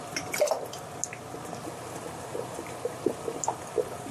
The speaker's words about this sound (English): And I'm boiling the lids to get it ready, and I'm just gonna ladle them in.